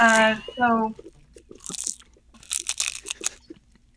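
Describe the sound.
Crunchy seaweed snack being bitten and chewed, with a few sharp bursts of crunching following a brief voiced sound, loud and crisp, with people present.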